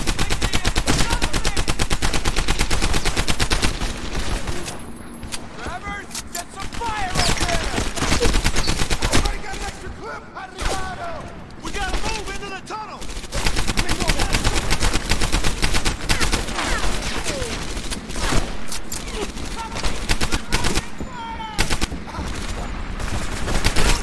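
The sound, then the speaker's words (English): Heavy gunfire in the video game Medal of Honor Airborne: loud, sustained automatic bursts and rapid shots rattling almost nonstop, broken only by a few short pauses. “Oh snap, they're shooting.”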